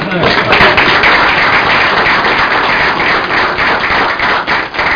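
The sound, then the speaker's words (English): A group at a meeting claps for a colleague. The applause is brisk and dense and runs throughout, with voices audible over it. “If we can clap for Steve, I'm going to send him back to work.”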